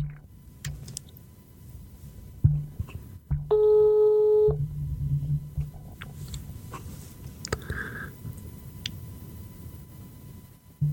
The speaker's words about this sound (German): Ich rufe ihn mal an und dann hören wir mal, was so passiert.